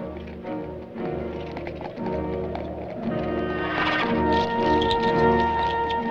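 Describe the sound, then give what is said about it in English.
Horse hooves of riders setting out from a ranch, a steady run of clopping that holds an even level and grows slightly louder toward the end. “Marisol rides forward from the ranch, escorted by a couple of Baxter's men.”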